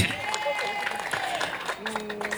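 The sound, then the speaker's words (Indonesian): Audience applause at a school performance contest, a crackling spread of hands clapping that carries on beneath voices speaking, with sharper individual claps standing out. “Tepuk tangan dulu buat RRI.”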